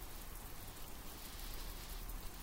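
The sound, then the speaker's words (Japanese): Rain falls in a steady, even hiss of dense drops, heard alone with no voices and no change in loudness. “雨の音しかしないね。”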